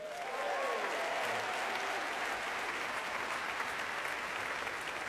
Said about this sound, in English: And we also have not just an orchestra, but the BBC Proms Family Chorus. Let's hear it for them too.